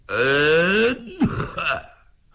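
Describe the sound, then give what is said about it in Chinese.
A storyteller's voice imitates someone coughing. A long, drawn-out, rising throaty sound is followed by a short, harsh burst and a fading grunt. “就听有人咳嗽了一声”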